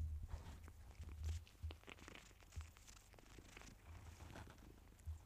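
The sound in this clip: A cat purrs faintly while suckling on a blanket: a low rumbling purr is broken by irregular soft clicks, rustles and small bumps of fabric noise, with no voices.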